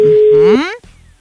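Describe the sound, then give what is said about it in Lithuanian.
A single steady ringback tone of an outgoing phone call sounds for about half a second, then breaks off abruptly with a brief sliding distortion and fades. “O dabar skambinam pirmajai porai, nežinau, jaunikiui skambinam”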